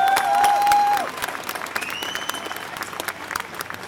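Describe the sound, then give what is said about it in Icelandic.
Audience applause for Bubbi Morthens at a union meeting: full, dense clapping from a crowd, with a sustained high tone over the opening second that drops away as the clapping carries on, slowly thinning. “Gefum hann eitthvað gott klapp. Bubbi Mortens.”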